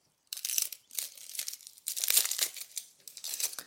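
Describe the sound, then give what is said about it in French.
Dry papery crinkling and tearing as the skin is peeled off an onion by hand, several faint crackly bursts in an uneven rhythm, with no talking. “Donc je vais éplucher mon oignon.”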